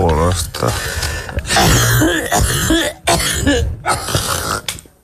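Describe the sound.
Throat clearing and coughing from someone with spelt from porridge stuck in the throat: rough, harsh bursts that stay loud through most of the five seconds, with short breaks between them.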